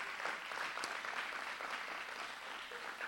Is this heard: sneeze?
no